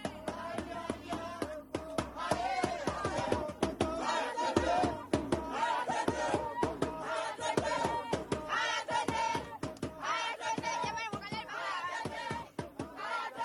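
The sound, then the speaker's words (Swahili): A crowd cheers and ululates after a football win by Tembo Warriors, with loud overlapping shouts and high trilling cries rising and falling throughout. “Ilikuwa shangwe na vigelegele baada ya Tembo Warriors kufanya kweli.”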